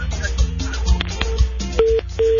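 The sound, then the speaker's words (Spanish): Call-waiting beeps sound on a phone line during a call: two steady, mid-pitched electronic tones in quick succession, heard after a stretch of voice and line noise. “Ahí parece que le está entrando una. Sí. Una llamada, porque ahí se oye pip, pip.”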